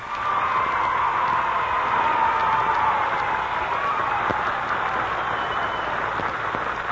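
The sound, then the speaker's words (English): Applause from an audience welcoming performers as they come on stage: dense, steady clapping that holds at an even level for the whole stretch, with no clear break. “So what do you say we give them a big hand as they come on stage,”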